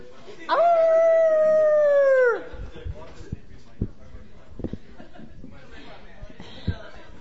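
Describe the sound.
A group of people at an open mic night howl together in imitation of wolves: one long, loud, steady howl whose pitch sags at the end, followed by quieter crowd chatter and a few soft knocks.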